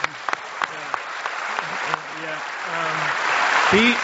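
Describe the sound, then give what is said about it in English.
An audience applauds while a man talks, the clapping swelling louder toward the end. “yeah, you can clap for him, yeah”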